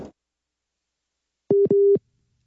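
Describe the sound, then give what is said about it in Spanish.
Busy tone after a dropped phone call: two steady mid-pitched electronic beeps in quick succession, the second longer, loud and clean against silence with no voices. “se nos cortó la llamada con Ilse Aguilar”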